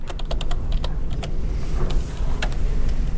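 Rapid, irregular clicking of keystrokes on a computer keyboard as code is typed into an Excel spreadsheet during a finance lecture. Many quick taps run steadily over a low background hum, with no voices.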